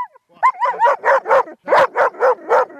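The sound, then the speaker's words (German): A female German shepherd with a very soft coat, 63 cm tall, barks on command in a quick run of loud, fairly high, yelping barks with short gaps between them. “deutsche Schäferhündin mit einem super weichen Fell geht mir bis zu den Knien. Wie hoch ist sie? 63 Zentimeter. Ja, und hier schon super motiviert. Die hat nämlich einiges drauf und das zeigst du mir jetzt mal, ne? Ja, sehr gerne. Aber vorher will Yadira mal Hallo sagen. Laut.”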